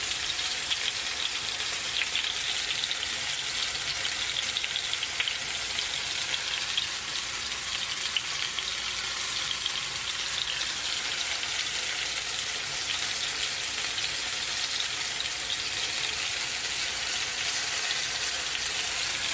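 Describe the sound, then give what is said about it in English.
Food fries on a hot cooking surface, giving a steady, even crackling hiss that continues without pause, with no talking. “This is looking pretty good on one side, so I'm gonna do a flip. This shouldn't splatter too much, but if it's splattering a little bit, you can definitely use a little splatter shield,”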